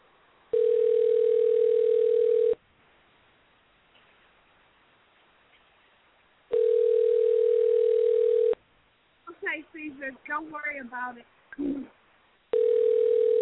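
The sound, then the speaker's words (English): Ringback tone while a telephone call rings out: two long, steady two-second tones separated by a pause, and a third that starts at the end. A person talks briefly in the second gap. “We'll see if they're going to pick up the phone.”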